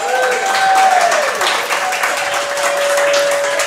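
Steady audience applause and clapping welcome a high school football wide receiver and safety onto a coaches' show, a continuous dense wash of claps that stays even throughout.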